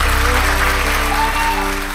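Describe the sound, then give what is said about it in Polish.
Applause from a radio studio audience during a live broadcast, with sustained musical tones underneath. The clapping stays fairly loud and even, then eases slightly toward the end. “Pietrucha, Zalewska, wielkie brawa”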